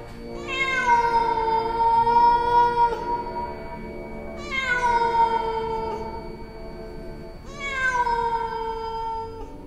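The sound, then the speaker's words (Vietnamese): Cat-like meowing cries of a child in the night, three long, loud, drawn-out wails, each starting high and sliding downward before trailing off, with pauses between. “Đứa bé kêu lên những tiếng như là con mèo rồi lập tức biến mất. Trong đêm tối, cái tiếng kêu của nó vang lên như là tiếng mèo kêu vậy.”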